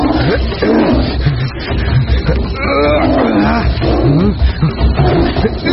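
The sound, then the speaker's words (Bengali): A tiger roars as it leaps to attack in the jungle: a loud, continuous rumbling growl that swells into a harsh, open-throated roar and holds for several seconds without a break. “Kalketu জঙ্গলে ঢুকতে না ঢুকতেই প্রচণ্ড হুঙ্কার ছেড়ে তার উপর ঝাঁপিয়ে পড়ল বাঘ।”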